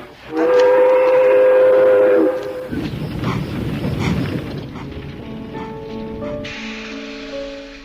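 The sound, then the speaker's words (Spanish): A train departs from a station. A loud, steady whistle holds for about two seconds, then gives way to the rumble of moving cars. A fainter sustained tone rises over the rolling noise near the end. “Una tarde fuimos a la estación a esperar el tren y a echar la carta, como entonces hacía. El tren marchó ante mis ojos, llevándose ese pequeño tesoro en el que iba toda mi ilusión.”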